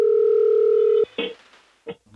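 A telephone dial tone on an outgoing call holds steady and loud for about a second, then cuts off abruptly. A few short, scattered bursts of sound follow.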